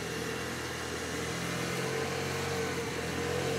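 A car engine runs at a steady, even drone with a constant wash of road noise while the car makes a short lap. It stays faint and unchanging throughout, with no clear revving.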